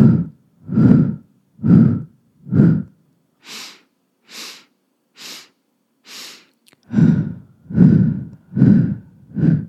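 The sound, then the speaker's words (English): A four-beat breathing exercise, inhaling through the nose and exhaling through the mouth: twelve breaths in three groups of four, the outer groups fuller and louder, the middle group softer and airier. “4-beat breath. So 4 inhales in through the nose. And then 4 exhales out the mouth.”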